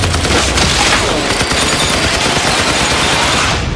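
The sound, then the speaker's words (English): Gunfire erupts in a loud, dense fusillade of rapid shots that blur into one continuous roar with no clear gaps between them. “Nice shooting, Sheriff. Give him something to remember.”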